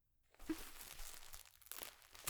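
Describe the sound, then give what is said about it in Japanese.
Faint crinkly tearing and rustling as a diaper's tape tab is peeled and fastened, a continuous scratchy plastic rustle marked by a few sharper crackles. “テープ止めて、よいしょ。”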